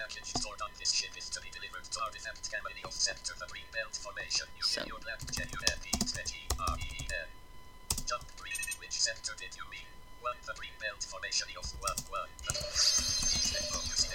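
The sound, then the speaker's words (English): Rapid typing on a computer keyboard, a long run of quick light clicks with occasional sharper taps, under voices and chirpy sounds in the background throughout. “I'm going to, type my destination.”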